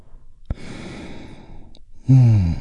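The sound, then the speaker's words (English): A deep guided breath during a relaxation exercise: a long, soft breathy inhale followed by a single louder, voiced sighing release that stands alone and fades at the end. “We do that by taking a big, deep, healing breath all together. Here we go. And release.”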